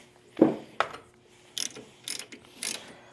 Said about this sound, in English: We're going to go ahead and break this brake arm loose.